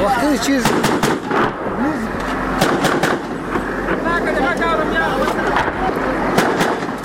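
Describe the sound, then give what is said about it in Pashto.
Gunfire is exchanged between police and militants at a front line near a market, with several sharp shots cracking at irregular intervals beneath continuous talk. “د عمومي بازار لوېدیځ لور ته په 200 متره کې د جنگ لومړۍ کرښه کې د پولیسو او وسلوالو ترمنځ ډزې روانې دي”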